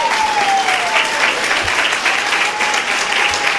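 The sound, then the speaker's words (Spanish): An audience claps during a Sunday sermon, loud, dense applause that holds at a steady level for the whole clip. “Hoy tienen ganas de aplaudir ustedes, ¿va? Vaya pues, aplaudan.”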